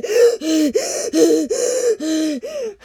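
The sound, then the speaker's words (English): A voice imitates someone gasping for breath after running, with seven strained, throaty gasps in a steady, rapid rhythm, each loud and slightly tonal with short breaks between them. “That was him running out of breath and being like.”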